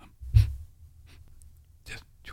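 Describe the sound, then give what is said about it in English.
Very shallow, barely-there breathing: a few soft, short breaths, one slightly stronger puff near the start and fainter ones later, with near silence between them. “where you're actually barely breathing. You know, just barely. And the breathing that you do is a little bit like,”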